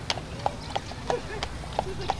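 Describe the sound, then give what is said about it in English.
Carriage horse hooves clip-clop on a New York City street in a steady, rhythmic gait, each crisp hoof strike standing out at regular intervals over a low background hum. “the rhythmic gait of a carriage horse in New York City.”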